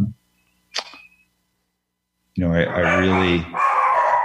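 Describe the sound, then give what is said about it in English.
A dog gives a brief, sharp bark or yip in a quiet gap, followed after a pause by a person talking. “sorry, that's my dogs.”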